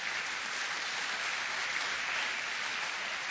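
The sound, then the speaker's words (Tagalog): A church audience applauding in praise of God during a sermon. The dense, steady clapping is sustained throughout without a break. “Pwede bang palakpakan natin ng Panginoon?”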